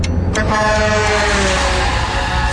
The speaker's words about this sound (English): I'm going to pull in front of this truck.